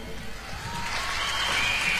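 An audience applauds as the music director is introduced at a live show, a faint, diffuse patter of clapping that gradually builds in volume across the moment.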